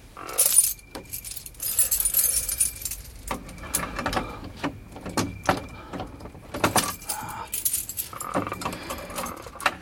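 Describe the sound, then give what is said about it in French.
A burglar's set of skeleton keys jangles at a sealed door in an absent naval officer's home, with bright metallic rattles coming in repeated bursts for about ten seconds. “Passe-moi les caroubles.”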